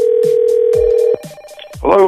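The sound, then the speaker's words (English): A telephone ringback tone sounds for a prank call. One loud, steady tone lasts just over a second over rhythmic thumping beats, then the beats continue alone and a voice briefly speaks at the end. “we're not going to let that stop us from making phone calls claiming that it is here and it's happening today. So let's do some Amazon drone delivery calls.”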